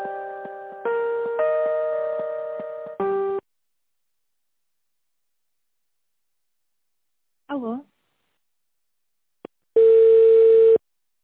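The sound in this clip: Electronic telephone tones while a call is transferred: about three seconds of stepped, layered beeping tones, a long silence, a brief warbling chirp, a sharp click, then a steady one-second tone.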